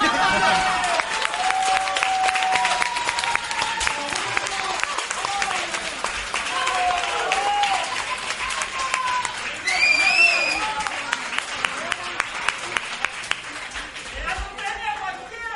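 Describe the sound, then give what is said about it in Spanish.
Audience applause after an award for worst special effects is given, a continuous dense patter of clapping that lasts throughout, with voices talking over it. “el público se ha vuelto loquísimo, loquísimo con este primer premio a los peores efectos especiales.”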